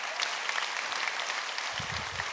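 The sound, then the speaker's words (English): Steady applause from a church audience during a sermon, an even, continuous wash of clapping that fills the short stretch. “Somebody want to clap for that?”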